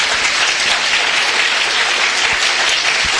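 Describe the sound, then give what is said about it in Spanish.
An audience at a book presentation gives loud, dense applause, with steady overlapping claps filling the whole clip without a break. “Un aplauso para Julieta, por favor.”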